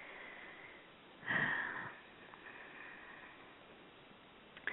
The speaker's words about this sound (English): Okay, nice inhale and exhale,